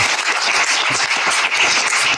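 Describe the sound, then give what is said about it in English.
Applause from a crowd, dense continuous clapping at a steady, fairly loud level from start to finish. “Why the applause?”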